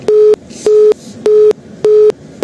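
A telephone busy tone sounds after a call drops: loud, steady mid-pitched beeps repeat evenly about every half second, five pulses separated by short gaps over a low hiss.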